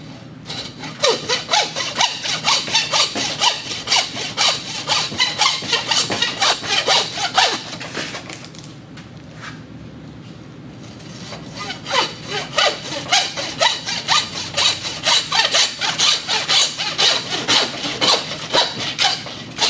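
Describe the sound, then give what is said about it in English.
Hand sawing through a deer antler at its base on the skull, cutting between eye socket and antler: many raspy back-and-forth strokes in a fast, steady rhythm, with a brief pause midway before the sawing resumes. “Just go straight across right between the eye socket and the antler, and go straight down, and then come in from the back at an angle and saw it off.”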